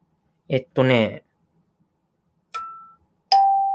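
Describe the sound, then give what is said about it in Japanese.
Two kalimba keys plucked with the thumbs ring out one after the other, each a clear, bell-like tone that decays slowly, the second lower in pitch; a brief voice speaks before the notes. “とりあえず両手で持って親指を使ってカリンバのキーを弾いてください。これで音がより明瞭になり、指も痛くないです。”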